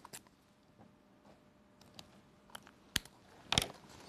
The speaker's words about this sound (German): Mein zweiter Wurf, eine 2.